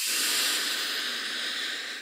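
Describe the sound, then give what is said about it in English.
Air drawn in through the nose with the tongue raised against the roof of the mouth gives a steady, airy hiss lasting about two seconds before fading at the end. “So we'll inhale through our nose, tongue up.”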